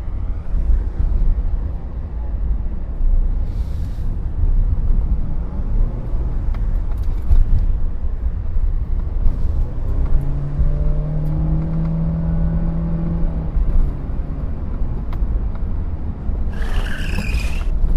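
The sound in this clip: A car drives into the woods with a continuous broad engine rumble. An engine hum shifts in pitch partway through, and no voices are heard.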